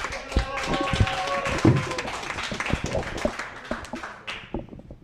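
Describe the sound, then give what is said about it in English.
Audience applause at a comedy show, sharp scattered claps that start fairly lively, then thin out into sparse, separate hits and fade toward the end. “Round of applause for these two”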